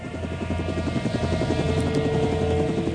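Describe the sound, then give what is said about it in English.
Helicopter rotor chopping in a steady, rapid rhythm over a low engine drone, sustained at an even level throughout with no talk. “And now finally Arnold can get to the chopper.”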